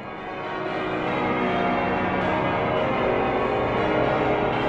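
Church bells ring for vespers in a dense, sustained peal, many overlapping tones blending into a steady, loud wash that swells slightly after the first second and holds to the end, with no voices.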